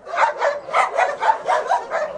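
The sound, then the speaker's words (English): Dogs barking at a crowded animal shelter on the outskirts of Brașov in the mountains of central Romania, a steady, rhythmic run of about eight loud, mid-pitched barks and yips. “A woman hops out and is greeted by hundreds of dogs.”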